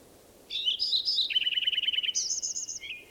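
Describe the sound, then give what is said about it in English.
A bird sings alone in high, bright whistled phrases: a rapid run of repeated chirps in the middle, then a higher trilled phrase and a brief closing note. “First bird I recorded is also singing.”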